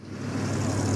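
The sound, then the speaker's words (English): Rush-hour road traffic: a steady, low engine rumble and drone of passing vehicles, continuous for about a second with no voices. “That's the sound of rush hour.”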